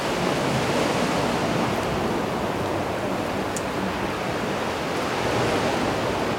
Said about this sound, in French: Que parfois nous avons du mal à discerner le son des vagues de celui du vent.